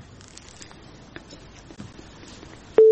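A steady telephone line tone of an incoming call cuts in suddenly and loudly at the very end, after a stretch of faint rustling and light taps.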